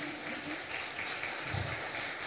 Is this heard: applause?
yes